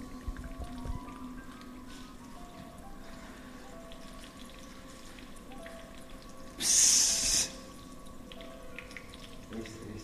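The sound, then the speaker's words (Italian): Water runs: a short, loud hissing rush of flowing water rises out of a low, steady background and stops abruptly after about a second. “Ma la facciamo scendere. Sta scendendo l'acqua.”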